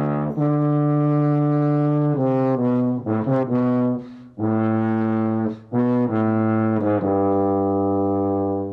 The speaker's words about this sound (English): in Don Juan, where the tuba plays one of the themes with the second trombone. It sounds like this.